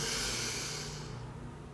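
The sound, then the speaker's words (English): A single long, deep inhale through the nose, heard alone during a breathing exercise. The airy, hissing rush is full at first and then thins and fades over under two seconds. “when you breathe, breathe in through the nose and make sure the breath goes all the way down to the belly”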